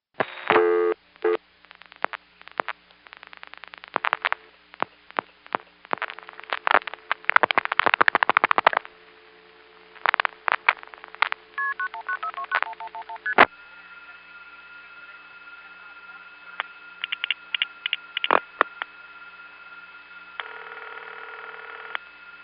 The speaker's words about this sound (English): the trunks are such that you can actually hear the crossbar tandem dialing the 4 digits